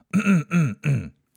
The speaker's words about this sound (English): Let me clear my throat.